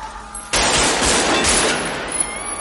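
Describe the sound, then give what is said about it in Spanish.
Gunfire bursts out in a shootout from the 1995 crime film Heat: a sudden loud, dense volley of rapid shots that keeps rattling and then slowly thins and fades. “Derriba a un policía y un transeúnte. Neil y Chris se ocultan tras un coche. Vincent dispara.”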